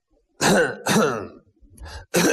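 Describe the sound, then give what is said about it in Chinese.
The owner of a cart coughs and clears his throat in a few harsh, rough bursts separated by short pauses, with a softer rasp between the later bursts and no speech. “他直咳嗽。”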